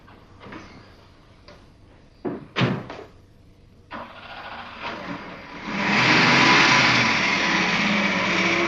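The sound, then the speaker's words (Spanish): A car parked in the garden of a house starts up and drives off: a few clunks and clicks, then the engine catches and swells into a loud, steady roar. “sube a su coche que está aparcado en el jardín de su casa”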